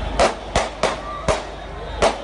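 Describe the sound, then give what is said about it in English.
A police officer's weapon fires on a busy street in the Eastleigh neighborhood of Nairobi: five sharp, loud gunshot cracks at uneven intervals. “He unloads again and you can see the boy writhing on the ground while the officer calmly, methodically reloads his weapon”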